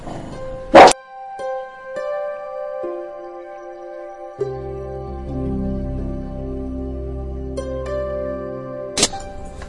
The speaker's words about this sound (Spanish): mi perrita que le está ladrando a las aves que ve por la ventana.